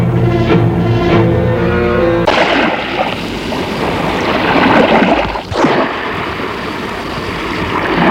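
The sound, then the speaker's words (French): Sea waves wash along the seashore as a loud, steady roar of surf and wind with gentle surges, preceded by a couple of seconds of a steady tonal sound that cuts off abruptly. “Après le repas, ils vont faire une petite promenade au bord de la mer.”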